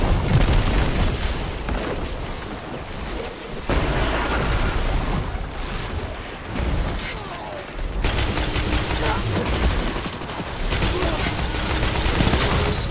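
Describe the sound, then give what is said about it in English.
Dense gunfire mixed with booming blasts, including grenade explosions, fills a match in the Destiny 2 video game. The firing and blasts stay loud and continuous for the whole stretch with only brief dips. “I'm about to throw a grenade and light them up.”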